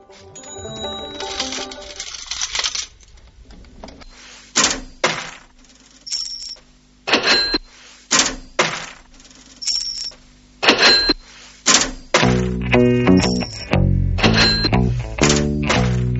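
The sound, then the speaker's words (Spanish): Coins clinking as they drop in among other coins already inside: bright metallic clinks and rings arrive as separate hits spaced apart, then crowd into a dense, jingling run near the end. “cantaban las monedas que ya estaban adentro. Y apenas llegaban monedas nuevas, estas, encantadas de verlas, respondían: triqui plic, carraca, taca, shin,”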